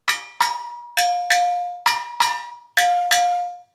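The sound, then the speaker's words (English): Metallic ringing strikes from a lens drum set on top of a rack tom: eight bright hits in quick pairs, each ringing and decaying, alternating between two close pitches. “Yeah, it's a lens drum.”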